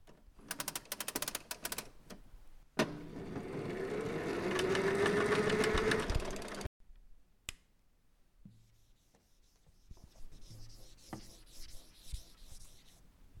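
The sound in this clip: A light switch, a slicing machine and PC typing form a sequence: clattering keyboard clicks, a sharp switch snap, a steady whirring slicer motor with a rising whine, then more scattered typing clicks.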